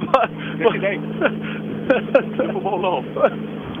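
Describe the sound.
A Volvo 240 arrives at the finish of a rally stage, its steady low engine rumble running under people talking, with a few sharper clicks and knocks.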